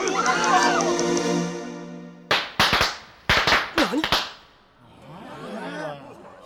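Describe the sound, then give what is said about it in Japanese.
Party crackers popped as a prank on a town street make several sharp, loud cracks in quick succession after a sustained tonal sound, followed by a voice. “クラッカー。いたずら。”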